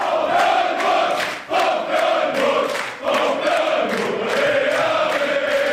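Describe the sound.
Football fans celebrate loudly after a city council vote to build a new stadium, a dense crowd cheering and chanting continuously with two brief dips in volume.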